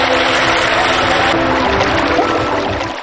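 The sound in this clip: Water rushes into a submerged car cabin during an escape demonstration: a loud, continuous, hissing pour that holds steady and eases slightly at the very end.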